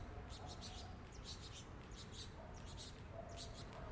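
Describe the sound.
Saffron finches call along a street, giving faint, high chirps in short repeated bursts over a steady wash of background noise.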